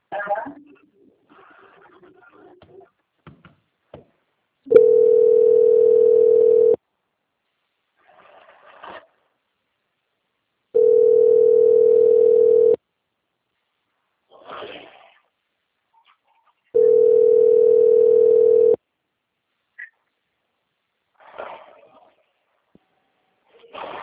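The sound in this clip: Telephone line tones during a call transfer: three long, steady low tones, each about two seconds, evenly spaced about six seconds apart, with faint voice fragments in the gaps between them.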